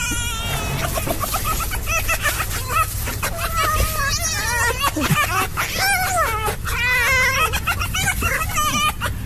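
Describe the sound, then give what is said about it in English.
A porcupine's laughing call: many high, wavering squeaks and whiny, bleat-like cries in rapid overlapping runs, fairly loud and continuous throughout. “This is a porcupine laughing.”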